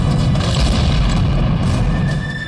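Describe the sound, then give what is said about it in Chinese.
A wheelchair explodes with a dense, sustained roaring blast of deep rumble and broad crackling noise. It stays loud throughout and eases slightly at the end, with no talk. “猛然间轮椅爆炸，英子”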